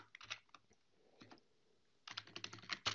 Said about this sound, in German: Hier habe ich mein Dokument drinnen und kann dann noch schreiben: Hi Ellen.